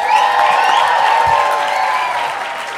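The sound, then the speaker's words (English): Applause and cheering from a comedy-show audience in Nashville welcoming a comedian to the stage: dense, sustained clapping mixed with crowd cheers, easing slightly toward the end. “Are you guys ready to bring out your next comic tonight? Make some noise, Nashville. Now make her feel welcome, everybody”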